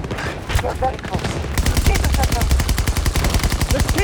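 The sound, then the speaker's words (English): Gatling gun firing in a video game, a rapid continuous rattle of shots that turns denser, steadier and louder after the first second and a half. “Let me set up the Gatling a little further out.”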